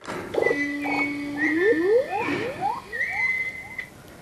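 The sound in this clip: An electronic toy croaks after a fish containing an RFID chip is fed into it. It gives a series of synthetic, upward-sweeping chirps and tonal croaks, several in quick succession, with no voices.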